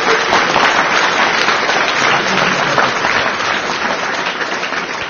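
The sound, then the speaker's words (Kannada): An audience at a Kannada gathering held in the presence of gurus gives dense, sustained applause. It is loud and continuous and eases off slightly toward the end. “ಆ ಚಪ್ಪಾಳೆ ತಟ್ಟೋದನ್ನು ಚೂರು ತಟ್ಟಿದರೆ”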